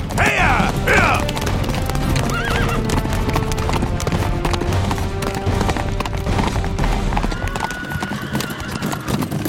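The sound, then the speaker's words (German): Hooves clip-clop steadily as a horse-drawn carriage travels on a cold night, with a horse whinnying near the start and a constant rolling clatter underneath. “Als die Kutsche schließlich vor Rumpelstilzchens Refugium hielt”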